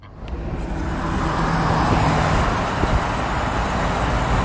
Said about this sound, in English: you hear that rattling in the background? Oh, I was like, wind. It's that you're driving your car.